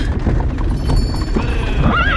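Horses pulling a wagon neigh loudly as it halts, with a shrill, wavering whinny near the end over a bed of hoof clip-clops and rumbling.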